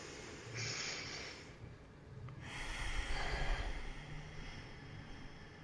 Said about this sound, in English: Let's breathe to that. Let's just take a breath.